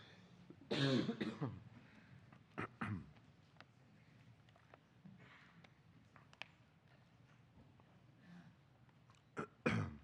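A person coughs and clears their throat in several harsh, breathy bursts separated by long quiet gaps, with one loud burst early on, two short ones soon after and a final burst at the end.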